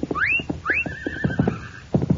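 A horse whinnies twice: a short, high rising squeal, then a longer wavering neigh that holds steady before fading, with low knocking thumps underneath.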